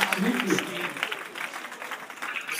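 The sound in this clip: Audience applause at a live radio comedy show with a band, a steady crackling patter of many hands lasting under three seconds, with a voice briefly heard at the start.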